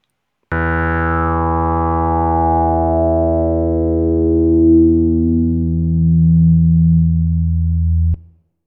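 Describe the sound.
A synthesizer tone runs through a resonant filter that emphasizes its cutoff frequency. The bright resonant peak sweeps steadily downward over about eight seconds against a constant buzzy drone, which then stops abruptly.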